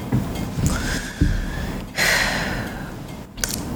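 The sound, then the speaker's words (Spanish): Heavy breathing close to a microphone: rough, airy inhales and exhales with a few sudden louder gusts, some snort-like, between quieter breathy stretches. “Perdón por el respiro así, ¿verdad?”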